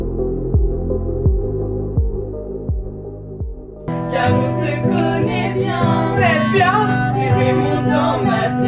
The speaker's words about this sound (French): Ce que vous entendez, c'est un extrait de Strong Enough, une comédie musicale sur les troubles du comportement alimentaire.